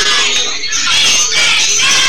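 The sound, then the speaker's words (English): A spirited crowd at a football game at the CA Sports Complex along the Cumberland River keeps up loud, continuous cheering and shouting, with massed voices that swell slightly midway. “And still a spirited crowd here. A little bit stunned, I'll say, at the CA Sports Complex.”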